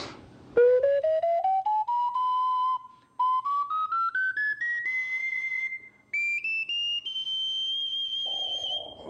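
A triple ocarina is played across its three-octave range. Clear, whistle-like notes step steadily upward from low to very high in short phrases, with brief pauses between them.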